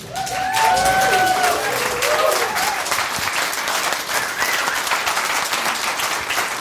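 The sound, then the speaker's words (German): A standing church audience applauds to welcome a speaker to the stage, a sustained, dense wash of clapping with a brief cheering voice near the start. “ihr würdet mir eine unglaubliche Freude tun, wenn ihr einfach aufsteht und den Chuck jetzt einfach mit einem Applaus willkommen heißt.”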